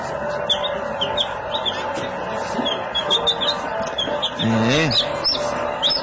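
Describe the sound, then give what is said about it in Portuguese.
Chicks on a farm cheep in many short, high, upward-sliding peeps over a busy background hum, with a louder wavering call near the end. “olha os pintinhos que fazem parte aqui da criação, né?”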